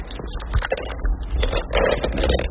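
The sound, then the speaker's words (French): Cracking and crunching of a ceramic plate being cut with pliers for a mosaic, a run of irregular gritty snaps and scrapes of moderate loudness. “Je casse mes assiettes, voilà. Une pince comme ça, je le coupe avec la pince.”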